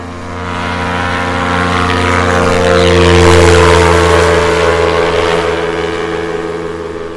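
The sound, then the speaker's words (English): An ultralight aircraft takes off with a propeller engine drone. The harmonic hum swells gradually to a peak midway, then eases slightly while staying loud and continuous. “can you hear it? Can you recognize it? You're also listening to an ultralight taking off.”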